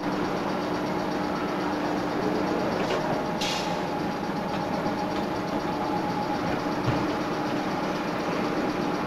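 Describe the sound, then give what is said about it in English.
Train in motion, a steady, dense rumble with a faint sustained tone running through it, holding an even level throughout with no voices. “As the train speeds away”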